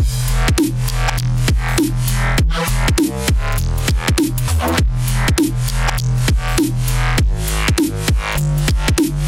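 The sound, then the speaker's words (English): Synthesized bass line from a sequenced Massive software-synth patch, loud and gritty, playing steady rhythmic note changes with plenty of tonal movement and no voices over it. “I'll play you the original bass line that I made just using a massive patch, just sequenced as we see the notes here.”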